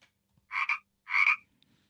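Two separate croaks from a frog, fairly soft and evenly spaced, each a short rasping burst.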